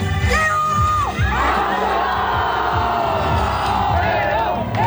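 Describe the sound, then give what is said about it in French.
A crowd of more than 20,000 at Club France cheers Léon Marchand's arrival on stage with fellow French swimming medallists, a loud, continuous roar full of whoops, shrill whistles and shouting voices. “Vous entendez derrière moi la folie au moment où la speakerine annonce l'arrivée du roi Léon, accompagné de tous les médaillés de la natation tricolore. Léon Marchand a été le dernier à monter sur scène, acclamé par plus de 20 000 personnes.”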